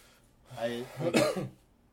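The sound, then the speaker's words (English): A single wet, phlegmy cough with a rough throat-clearing quality comes in a short burst of two close pushes, then falls quiet. “Oh, did I cough? That seems it was a little wet.”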